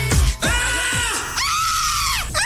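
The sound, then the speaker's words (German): Screams of joy after Germany's 1-0 football win: a few long, high, piercing screams, loud and sustained, each holding a strained pitch before breaking off. “Schrei vor Glück.”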